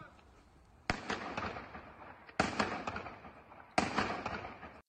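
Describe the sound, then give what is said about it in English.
Shotgun fired into the air during looting: three loud, sharp blasts spaced evenly apart, each with a long rumbling tail that fades before the next shot. “I don't know that it's recommendable to shoot a shotgun like this in the air”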